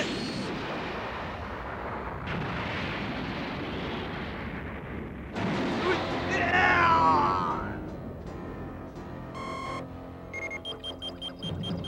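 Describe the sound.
An energy blast attack explodes in an animated fight with loud, broad bursts of roaring noise that swell to a peak midway. Ringing tonal effects and rapid pulsing follow the blast.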